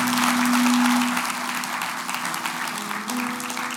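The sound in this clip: Applause from an audience congratulating a pastor newly made chairman of a board of directors: steady, moderately loud clapping throughout, with a low sustained tone under it at the start.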